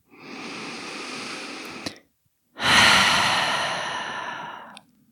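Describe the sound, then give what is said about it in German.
Deep breaths drawn in and then released through an open mouth during a guided relaxation: one long, airy inhale, a short pause, then a louder, rushing exhale that slowly fades, with no talking. “Nimm ein paar tiefere Atemzüge ein und aus. Geh mal durch den geöffneten Mund loslassen.”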